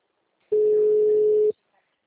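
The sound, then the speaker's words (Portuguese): A single steady telephone tone while calling a local health clinic: one even, mid-pitched hum lasting about a second, then silence. “Tô ligando no postinho, ver se...”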